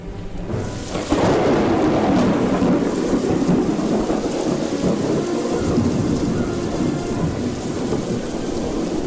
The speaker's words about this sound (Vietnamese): Chẳng bao lâu, sấm chớp nổi lên và một cơn phong ba khủng khiếp đổ tới.